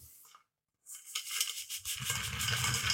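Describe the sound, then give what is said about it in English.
Dry Christmas pudding ingredients being tipped from one bowl into another: after a moment of quiet, a continuous gritty rustle and scrape of loose dry mixture pouring and sliding, growing fuller toward the end. “Now really it's just a question of mixing all of the dry ingredients together. I've got them in 2 separate bowls at the minute, so let's put them all in 1 bowl.”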